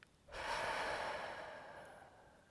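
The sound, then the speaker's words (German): A single long, deep breath in and out during a guided calming exercise with hands resting on the heart, a steady airy rush that swells quickly and then slowly fades, with no voices. “atme tief ein und wieder aus”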